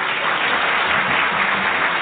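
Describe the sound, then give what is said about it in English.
Steady, sustained applause from a church audience at Kowloon International Baptist Church in Hong Kong, welcoming a guest speaker, with an even wash of clapping and no talking. “So would you welcome our dear friend in the person of Dr. Harry L. Lucene. Would you give him a hand?”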